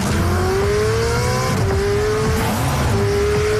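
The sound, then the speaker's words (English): Sports car engine roaring loudly and continuously, its pitch climbing steadily, dropping briefly as it shifts gear, then climbing again. “Sports cars sounds like this.”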